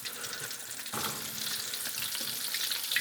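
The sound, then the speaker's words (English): Food sizzles and crackles in very hot oil in a wok, making a dense, continuous hiss that steps up in loudness after about a second and stays strong without any voices. “One of the reasons I like the wok is when you when your oil gets super hot, you can kind of roll stuff into it. Turn that down a little bit. Actually, we are getting crazy hot with this wok.”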